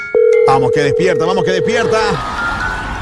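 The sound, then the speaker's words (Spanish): A phone's ringback tone sounds while a call is placed early in the morning to a friend on her birthday. One steady, even tone holds for about two seconds, with a voice talking over it. “Ahí estamos marcando. Suena diferente para... A ver si despierta.”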